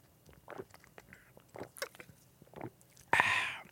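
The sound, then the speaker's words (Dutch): Gulps of a can of Monster energy drink: a few soft swallowing sounds spaced apart, then a sudden loud breathy hiss that fades out. “Voor de mensen die op de cardio staan, mijn excuses. Ik hoop dat het verfrissend klonk. En ik hoop dat jij zometeen ook een lekker post cardio mandatory monster momentje voor jezelf hebt.”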